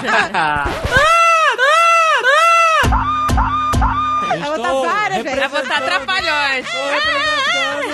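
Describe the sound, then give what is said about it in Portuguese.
A mostly female audience reacting with high shrieks and squeals that rise and fall in overlapping waves, broken by a few sharp clicks and continuing as excited vocal noise to the end. “Reação do público. Aí... Público, né? Em sua maioria feminino, né?”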